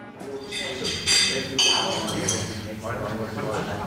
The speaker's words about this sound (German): Der Frühstücksraum des Hotels füllt sich. Gäste holen sich Eier, Speck, Brot und Marmelade vom Buffet. Kannen mit Kaffee und Tee stehen auf jedem Tisch.